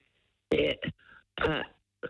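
A caller with a very bad sore throat gives rough, harsh throat clearing and coughs in a few short bursts, gravelly and fairly loud, with no words.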